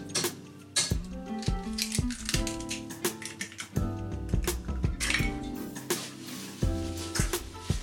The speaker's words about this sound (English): stir it in. And then drop the other egg in.